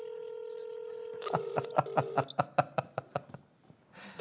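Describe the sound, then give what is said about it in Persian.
A steady telephone dial tone gives way to a rapid, evenly paced run of keypad dialing beeps as calls are placed on several phones; the tones are clear and moderately loud, followed by a brief burst of softer noise at the end. “دوستان با چند تا تلفن داریم زنگ میزنیم”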